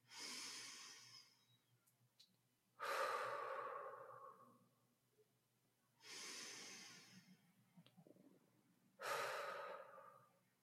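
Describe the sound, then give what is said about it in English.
Four slow, deep breaths, each a long, soft, airy rush of air with quiet pauses between them. The breathing is gentle and even, with no other sound around it. “just sit for a minute and take a few deep breaths.”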